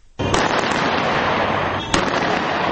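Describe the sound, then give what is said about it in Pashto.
Celebratory gunfire in Libya: a dense, loud crackling rattle starts abruptly and continues without pause, with a sharper crack near the end. “دا هغه ډزې دي چې نن سهار د لیبیا د سرخار د نورو سیمو په ګډون د ولسمشر مومر قذافی د اوسېدو ځای سره نږدې تر غوږو شوې دي”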